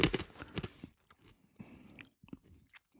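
Crunchy chewing of small, round, wasabi-coated dried peas, with a run of irregular crisp crunches and bites that taper into softer munching, faint and with no talk.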